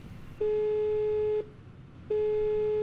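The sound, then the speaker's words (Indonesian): Telephone call tone while dialing a mobile phone: two long, steady beeps of about one second each at one mid-low pitch, separated by a short gap, with no talk. “Gimana ya kalau kita coba telepon aja dia? Semoga aja nih nomor handphonenya masih sama.”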